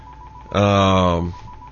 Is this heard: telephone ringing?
yes